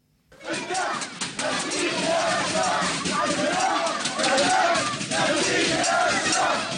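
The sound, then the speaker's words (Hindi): Crowd chanting slogans and cheering in Aleppo, Syria, celebrating an army victory in support of the president. Loud massed voices rise after a brief quiet start and continue steadily. “सीरियाई शहर Aleppo में सेना की जीत की खुशी मनाते लोगों ने राष्ट्रपति बशर अल असद के समर्थन में जमकर नारे लगाए।”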